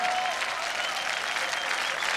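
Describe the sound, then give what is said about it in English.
Church audience applauding for Jesus during a worship service, a steady, even burst of many hands clapping that holds at the same level throughout. “If you believe today is your day, put your hands together for our Lord Jesus.”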